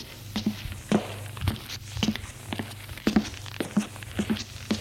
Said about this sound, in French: l'escalier de pierre, usé. Elle monte jusqu'au deuxième étage.